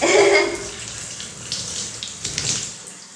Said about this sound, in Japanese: シャワーを下から当てて洗い残しがないように